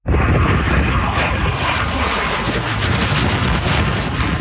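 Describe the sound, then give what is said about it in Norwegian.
Roar of a Russian MiG-29 fighter jet flying low over the ground in Wisconsin, a loud, steady, continuous engine rush with wind-like noise that holds at full strength from start to finish. “Det tidligere denne uken et russisk MiG-29 jagerfly stryker lavt over bakken.”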